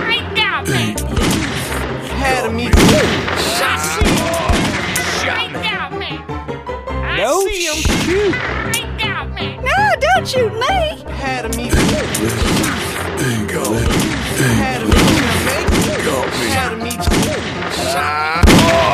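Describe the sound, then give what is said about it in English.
Gunfire in a shootout during a robbery: many sharp shots and bursts fire in quick, irregular succession, with loud voices talking over them throughout. “Shot me. Hey, they got us surrounded. Let's get out of here. Nice shooting.”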